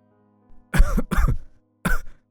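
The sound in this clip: A man coughs repeatedly: a faint catch, then three harsh, chesty coughs, the first two close together and the last after a short pause.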